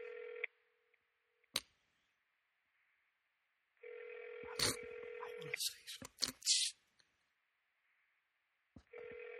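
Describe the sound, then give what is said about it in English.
Telephone tones as a phone is speed-dialed: a brief steady tone, a sharp click, then a longer tone broken by several quick beeps and clicks, and a short tone again at the end. “Let me get the phone. Hold on. You want a number? I can speed dial.”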